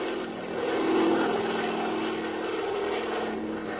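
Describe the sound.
A small aircraft flying over a bay, its propeller engine a steady, fairly loud droning hum that swells slightly early on and then holds even throughout.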